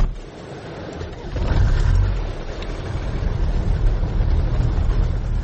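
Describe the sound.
A car engine as an old red car drives past: a deep, steady rumble that swells noticeably around the middle and then holds loud and even to the end.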